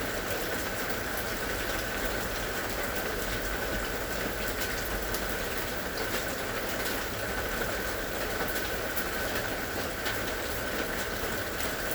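Steady rain falling, a dense, unbroken hiss that stays even in level throughout, with no distinct drops standing out and no voices.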